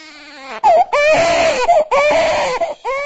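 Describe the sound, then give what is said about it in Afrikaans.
A baby cries while a nurse gives an injection. The loud, wailing sobs come in repeated bursts broken by short gasps for breath. “Ababa huil terwyl Becky Masondo hom 'n inspuiting gee.”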